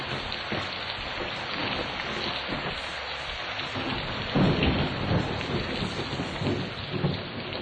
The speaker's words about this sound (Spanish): ya empezó a llover, güey